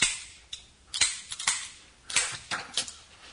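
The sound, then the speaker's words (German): Sharp metallic clicks from a pistol being dry-fired after its firing pin was removed, about eight crisp snaps in an irregular, quick series, fairly loud and with no talking over them. “wollen Sie sich nicht zunächst überzeugen, ob Ihre Pistole funktioniert?”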